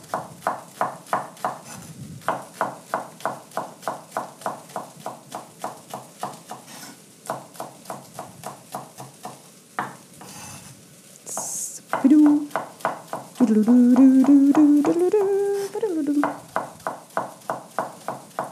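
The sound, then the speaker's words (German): A knife chops leeks on a cutting board for a sweet potato and leek soup with smoked tofu. Many quick, evenly spaced knocks fall in a steady rhythm with brief pauses, and a voice is heard briefly partway through. “Und weiter wird geschnitten.”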